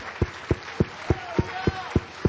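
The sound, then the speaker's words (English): A church audience claps in unison: eight sharp, evenly spaced claps in a steady rhythm, with a voice heard between them. “Let's clap our hands unto him and bless his name.”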